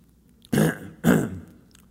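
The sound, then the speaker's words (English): A person clears their throat in two loud, rough, raspy bursts about half a second apart, the second trailing off more slowly, with no talking. “I cleared my throat”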